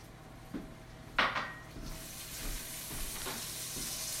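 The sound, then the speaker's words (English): A tablespoon of vinegar poured into a hot cooking pan with rosemary: a sudden sharp hiss of sizzling bursts out and trails off, then a softer, steady frying crackle carries on. “1 tablespoon of vinegar. All right, put the vinegar in.”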